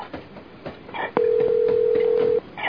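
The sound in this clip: A telephone dial tone: one loud, steady mid-pitched tone lasting a bit over a second. It rises out of faint, low background noise with soft clicks, then cuts off abruptly.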